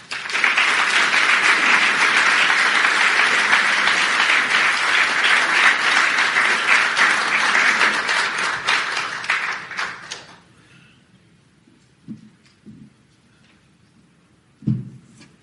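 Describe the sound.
Applause greets a speaker at a Friday night session of a 2017 Ontario conference: loud, dense clapping holds steady for about ten seconds, then stops abruptly, leaving near quiet with a few soft knocks.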